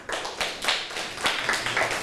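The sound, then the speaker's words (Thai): Students clap for a classmate in a mathematics lesson, giving scattered, uneven hand claps in a few bursts at a fairly soft level. “ถูกต้องค่ะปรบมือให้เพื่อนหน่อยค่ะ”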